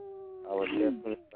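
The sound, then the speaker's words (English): An animal howl played as a sound effect: a wavering, mid-pitched wail that swells to a loud peak and breaks off, preceded by a steady tone. “I think someone's howling because you went outside with some booty shorts on.”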